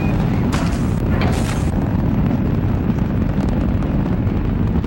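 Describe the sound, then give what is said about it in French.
A rocket lifts off its launch pad with a thunderous, continuous roar: dense, loud low rumbling that holds steady throughout, with crackling bursts and no voices. “Et le bruit assourdissant de la fusée qui s'arrache du sol résonne à des dizaines de kilomètres à la ronde.”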